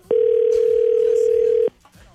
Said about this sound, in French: Ça sonne-tu? Ouais, ça sonne. Ça sonne.